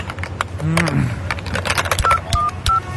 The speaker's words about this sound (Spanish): ahora marcarle a mi mamá con la tarjeta